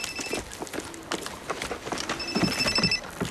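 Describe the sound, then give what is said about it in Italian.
A telephone bell rings in two short bursts, one at the very start and another near the end, with some clattering knocks in between. “Commissario! Commissario! Che c'è? Alza il telefono.”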